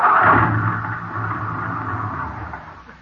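A car engine running out of gas and stalling on a lonely spot, a low steady rumble that slowly weakens and fades over about three seconds, with no talk over it.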